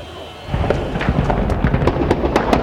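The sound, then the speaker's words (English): Stray gunfire crackles through a running gun battle around a compound in Tripoli: many sharp shots and cracks in rapid, irregular succession over a constant low rumble, continuing without pause. “There's a lot of stray fire in this area as this running gun battle is continuing.”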